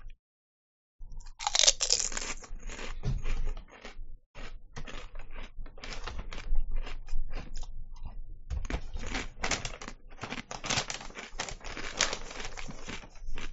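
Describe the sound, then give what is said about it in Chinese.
Crunchy chewing of food, many dense bites and crackles in a steady, loud stream that starts after a second of silence and runs without pause to the end. “唔好意思啊，嚼住嘢讲唔到嘢。”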